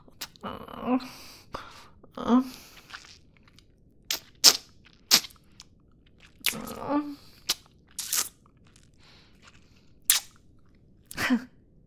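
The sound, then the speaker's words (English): Wet biting and crunching sounds as a vampire bites into a neck come in many short, separate bursts, with small gasps between them. “So I'll just bite your neck now.”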